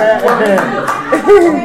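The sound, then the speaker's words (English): A baby claps hands a few times, soft quick pats mixed in with adult voices talking and chuckling. “So, the baby, clap for yourself again. Clap for yourself.”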